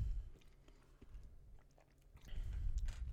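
A bite and chewing of a chocolate-flavoured snack: soft, moist, faint mouth sounds that run steadily and grow a little denser toward the end.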